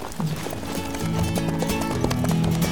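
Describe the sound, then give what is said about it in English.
Hooves clip-clop as a horse trots along a trail in spring country, a steady rhythm of loud, even beats that continues without pause. “It was already well along, so we trotted north on the trail to Douglas”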